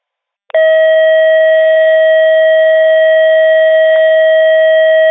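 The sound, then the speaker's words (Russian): Buzzer tone on a radio channel, starting abruptly after a short silence and then holding loud, steady and unbroken at one pitch until the end, with no voices. “Зуммер, слышу хорошо.”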